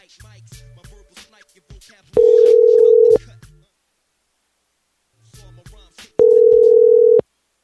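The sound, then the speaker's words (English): Steady telephone tone while a call is placed to a furniture store: two long, even one-second tones separated by a pause, with faint voices and clicks before each. “We're calling the Nation of Islam in Knoxville again. No, really, it's a furniture store, but we're calling them.”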